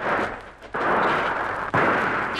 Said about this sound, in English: They've seen us. Yes. Firing from the trees down there.